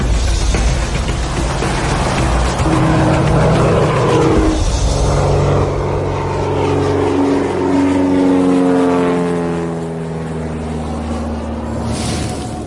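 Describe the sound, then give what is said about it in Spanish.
An airplane engine drones as the plane taxis on the ground. The steady, loud mechanical hum carries harmonic tones that slowly drift and shift in pitch throughout. “Solo quiero que sepáis que el avión está rodando.”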